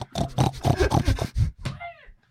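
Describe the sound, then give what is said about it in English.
A toy plays a crying-pig sound: a run of nasal, voice-like grunting and whining syllables, then a short high wail whose pitch falls away before silence. “Is that what a crying pig sounds like?”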